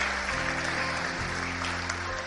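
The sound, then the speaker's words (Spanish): A church audience applauding in praise: a steady, dense clatter of many hands over low sustained tones, continuing evenly for the whole clip. “Dale el aplauso al Rey. Gloria a Dios.”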